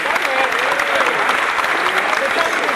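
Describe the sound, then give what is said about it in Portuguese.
A crowd at a samba circle gives a composer steady, dense applause, with many hands clapping evenly at high volume throughout. “Uma salva de palmas pro compositor que mostrou.”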